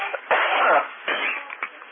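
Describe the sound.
Coughing and throat clearing from a tickle in the throat, heard over a narrow-band amateur radio transmission: a few harsh, raspy bursts, loud at first, then shorter and weaker hacks.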